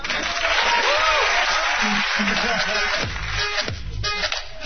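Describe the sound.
Audience applause at Jimmy's Uptown for a performer: a dense, continuous wash of clapping and crowd noise that runs loud throughout and eases only slightly near the end.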